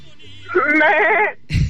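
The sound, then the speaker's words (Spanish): A person imitates a sheep's bleat: one loud, nasal, wavering baa with a trembling vibrato, then a short rough burst of noise at the end. “Oiga, pero ¿cómo hace el borrego?”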